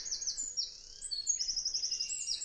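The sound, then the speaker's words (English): High, penetrating call of a tiny bird, made of thin, bright chirps and quick trilled notes in rapid repeated bursts, clear and alone. “Isn't it amazing for such a tiny little bird? Yeah. What a sort of distinct and penetrating call. They've definitely got some voice,”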